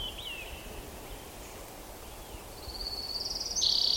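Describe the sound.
Orange-crowned warbler song: a thin, high trill that grows louder toward the end, heard over a steady low background hiss.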